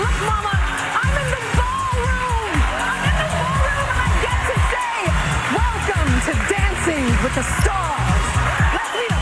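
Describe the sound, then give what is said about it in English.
A studio audience cheers and applauds at the Hollywood season premiere of Dancing with the Stars. The roar stays steady and loud while an amplified voice speaks over it. “listen to the crowd and remember that a capacity crowd was not on hand. And here's how it sounded.”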